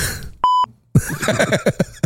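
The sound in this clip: A single censor beep cuts in as a steady, clear electronic tone lasting about a quarter second. Silence follows briefly, then a person talks.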